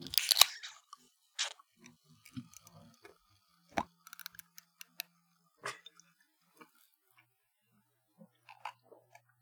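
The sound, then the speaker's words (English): A plastic Dr Pepper bottle is cracked open with a brief hissing crack at the start, followed by scattered small clicks and crinkles of the plastic in near silence. “Let's crack them open. It's going to be a very disappointing crack because it's plastic.”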